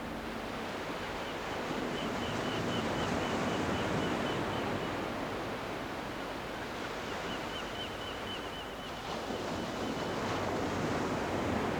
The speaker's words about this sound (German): Das Meer schob seine Wellen wie dünne Bretter über den Sand.